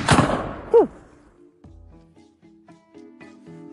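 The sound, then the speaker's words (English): A gunshot from a firearm fired on a drill command to give fire: a sharp, loud bang at the very start that quickly decays, followed by a brief knock and quieter low rumbling. “I think it fired. It did fire. I heard something.”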